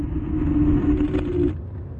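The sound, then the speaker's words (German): Steady low rumble of a car interior while driving to Siegburg, a droning engine and road hum with a faint tonal band that drops a little in level toward the end; no one speaks. “So, ich wollte mich dann nur schnell eben melden und sagen, jetzt sitzen wir im Auto und fahren gemeinsam nach Siegburg.”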